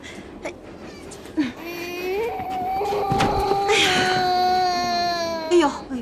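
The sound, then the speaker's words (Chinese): A young child cries in long, wavering wails that break into sobbing catches, loud and continuous throughout. “乖孩子，别哭了。”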